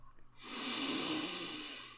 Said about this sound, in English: we want to inhale 3 times deeply through the nose into the belly and exhale fully through the mouth.